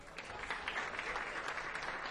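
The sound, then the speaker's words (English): Audience applause welcomes a performer onto the stage at an evening music event: a steady, dense wash of clapping that holds at an even level throughout. “Please put your hands together and welcome my good friend, Jamie Wilson.”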